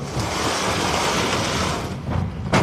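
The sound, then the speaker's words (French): Cultivation tables are rolled aside on wheels to reach a water access hatch, producing a long, steady rumbling roll that eases off, then a few short knocks at the end. “Ouverture, on est en train de passer entre deux tables de culture, donc on les fait rouler sur la droite, et puis, voilà. Oui, on est en train d'ouvrir, moi je dirais une bouche d'égout, mais en fait c'est la bouche qui nous permet d'accéder aux ressources d'eau.”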